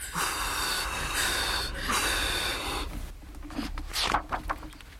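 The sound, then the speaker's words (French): Someone blows on a burning book to put out its smouldering pages, giving quiet, breathy gusts of air: long hissing blows first, then a few shorter, sharper puffs toward the end. “On doit souffler. Aide-moi à souffler, dit la grande personne.”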